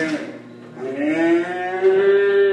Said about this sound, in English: They're sticking plastic rods down the noses of six-month-old calves, collecting samples of bacteria.